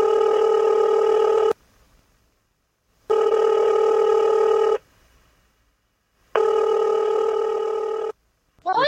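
Telephone line tones during a call being dropped and placed again: three long, steady buzzing tone bursts of about a second and a half each, separated by near-silent gaps.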